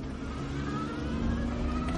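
A car engine hums steadily as the car reverses through a parking lot, a continuous mid-pitched motor drone heard alone.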